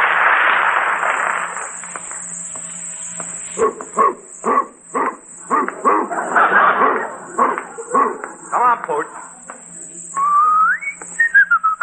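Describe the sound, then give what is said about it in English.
A Great Dane barks in many short, loud, irregular bursts, preceded by a steady whistle-like tone and ending with a rising whine among the last barks. “wait till Curly sees this great Dane I got him.”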